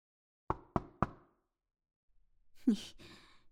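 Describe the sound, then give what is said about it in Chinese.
Knocking on a door from outside: three sharp, evenly spaced raps in quick succession, then a pause and a breathy sigh. “没听到外面已经有人敲门了？”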